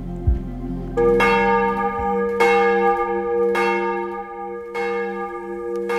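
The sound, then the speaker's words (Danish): Church bells ring for morning service at a church in Copenhagen, sounding a few loud, evenly spaced strokes. Each stroke leaves long, rich, overlapping overtones that hum on between strikes. “Der ringes til morgenandagt fra Vor Frue Kirke i København.”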